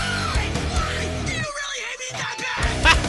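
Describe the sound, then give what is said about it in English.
A person screaming over heavy metal music: harsh yelled vocals on top of dense, loud, distorted instruments, with a brief thinning of the low end midway before the full noise surges back. “Oh, crazy liberal screaming over heavy metal.”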